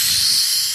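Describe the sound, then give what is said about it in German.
Hissing from a plastic bottle being opened: a short, steady, bright rush of air lasting under a second, heard alone at fairly strong level. “Ich habe eine Flasche öffnen. Und diese Flasche macht ganz komische Geräusche.”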